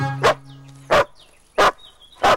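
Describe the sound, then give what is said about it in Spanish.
A dog barks four times, each bark sharp and loud with short quiet gaps between them at a fairly even pace. “Un perro se incorpora y levanta las orejas ante la llegada del joven.”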